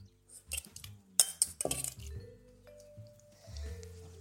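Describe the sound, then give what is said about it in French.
Prunes are dropped into a casserole pot that will go into the oven, giving several irregular soft squishy thuds and light clinks against the pot, fairly faint. “Alors, je garde ma cocotte. En fait, cette cocotte, c'est celle que je vais mettre au four, tout simplement. Je vais ajouter la moitié de mes pruneaux dans la cocotte.”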